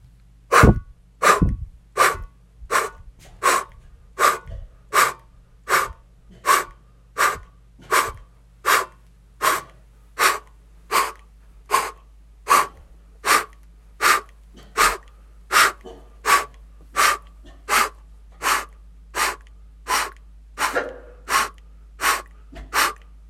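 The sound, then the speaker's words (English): Rhythmic open-mouth breathing during a breathing exercise: many sharp, evenly spaced inhale and exhale bursts in a steady loud pattern, with no talking. “Inhale, open mouth, exhale, inhale, and begin.”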